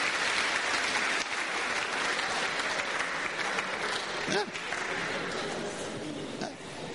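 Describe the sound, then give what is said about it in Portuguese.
A church audience claps for the Lord during a bilingual service. Dense, steady applause fills the whole stretch, with a voice briefly rising over it. “Put your hands together for the Lord. Palmas para o Senhor.”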